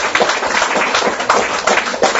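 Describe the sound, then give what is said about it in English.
Applause from a church audience during a service: dense, steady clapping that holds at an even loudness for about two seconds. “Yes, let's give God a clap offering, shall we?”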